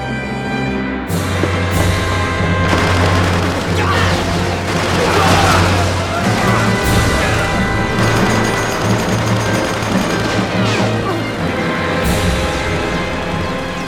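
Machine gun fire rattles through a war drama as soldiers are pinned down by two machine guns, a loud, dense stream of shots with booms and crashes throughout the scene.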